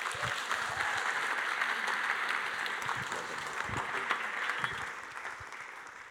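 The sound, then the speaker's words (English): An audience applauds to welcome a speaker to the stage. The clapping is dense and steady, then thins and softens slightly toward the end. “So please, let's put our hands together and welcome Pete Portal.”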